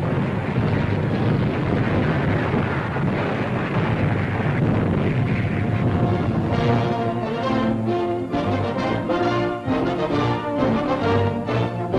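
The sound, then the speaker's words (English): Battle noise from a World War II newsreel of a US assault on a Japanese-held Pacific island: heavy, unbroken rumbling and roaring from guns and blasts. It is loud and dense throughout, with no clearly separate shots. “United States gunfire is ceaseless, and here in the heat of battle, we see a group of frightened, terror-stricken Japs rushing to a safe haven, which they never attain.”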